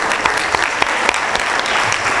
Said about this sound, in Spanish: Y por eso también un aplauso para nuestra distinguida moderadora del panel.